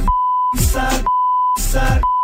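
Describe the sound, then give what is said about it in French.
Censor beeps over French song lyrics: a steady, mid-pitched tone sounds three times, each beep alternating with short bursts of sung or rapped vocals over the music. “attention, on a bipé”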